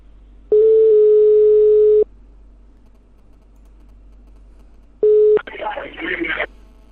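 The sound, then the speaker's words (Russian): Telephone dial tone on a handset as a number is dialed again: a steady mid-pitched hum lasting about a second and a half, then after a quiet pause a second short burst of the same tone, followed by a brief rougher crackle. “Так, еще раз наберу.”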